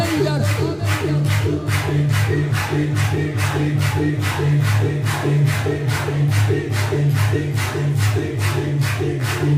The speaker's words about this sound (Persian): بعدی رو میخوام کوبنده تر دست بزنیم به نام نامی مولا ابو تراب ایدر